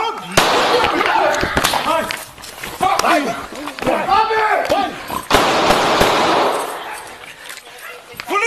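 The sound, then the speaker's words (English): Police gunshots fired in the dark: a few sharp, loud bangs cut through agitated, overlapping voices that stay loud and tense throughout. “As you're about to hear, the officers only announced themselves as police after firing shots at the husband and father of two small children in the dark.”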